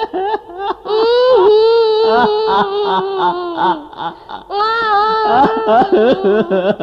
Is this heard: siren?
no